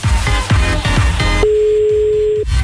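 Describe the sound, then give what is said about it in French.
A telephone ringing tone during an early-morning call placed on radio: one steady, mid-pitched beep lasting about a second, sounding right after a burst of loud music ends. “Voilà, on appelle à Bovini pour vérifier le sondage ce matin, c'est parti.”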